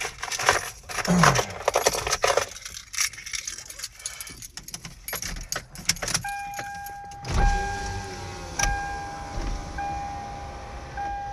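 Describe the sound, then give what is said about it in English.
Car power windows being opened: a steady electric motor whine comes in partway through and holds to the end. Earlier there are scattered clicks, rattles and vehicle noise, with a light jangle of keys. “We need to open up these windows”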